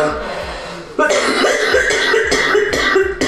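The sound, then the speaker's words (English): Someone getting over an illness coughs harshly after a burning hit from a pipe that was left too long, a series of rough, loud bursts following a quieter stretch. “always gotta be coughing during the podcast”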